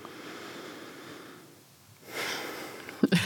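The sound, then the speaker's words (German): A deep breath drawn in, a soft breathy hiss that swells for about a second and ends in a brief, sharper sniff. “Da muss ich erstmal tief einatmen”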